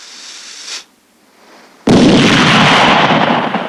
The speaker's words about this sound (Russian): Взрывная волна срывает челмы с голов старцев.